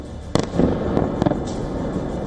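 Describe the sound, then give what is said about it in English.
Russian missiles exploding on impact in Kyiv's Golosiivskyi district. A few sharp, loud bangs stand out over a steady, rumbling background, with no voices. “In the Golosivsky district, four Russian missiles slammed into the air. There were no interceptions, no explosions in the sky, just impact after impact.”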